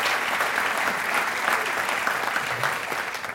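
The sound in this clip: An audience claps for a photo, producing dense, steady applause that stays evenly loud for the whole stretch without a break.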